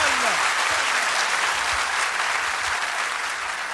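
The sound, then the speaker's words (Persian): Audience applause: many hands clapping in a dense, steady wash that holds at an even, fairly loud level for the whole stretch and eases slightly near the end. “جوندار دست بزن ماشاءالله.”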